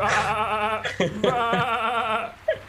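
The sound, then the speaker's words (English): Goat bleating while being dragged on a rope leash: several loud, wavering, quavering bleats in quick succession, mid-pitched with a strong vibrato. “I'm dragging this poor goat around on a rope leash.”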